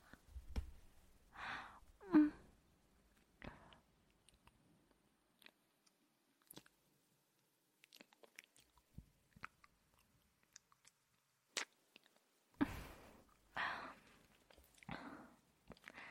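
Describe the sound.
Soft, quiet mouth sounds of biting and nibbling on an ear come in scattered wet clicks and short bursts, separated by faint breaths and pauses, with no talking.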